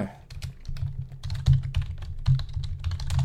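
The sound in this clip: Quick, irregular keystrokes clatter on a computer keyboard as a book title is typed in, a dense run of clicks over a low steady hum.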